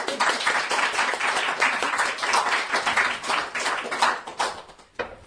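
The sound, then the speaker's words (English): Steady applause from an audience welcoming a poet to a poetry reading, dense and even for about five seconds before thinning out and fading at the end. “So please do put your hands together to welcome Claire Crowther.”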